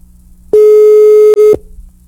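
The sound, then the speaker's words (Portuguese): A telephone line tone while a call is placed: a single loud, steady low electronic tone lasting about a second with a brief dropout near its end, heard alone without talk. “Pode ligar. Tá chamando?”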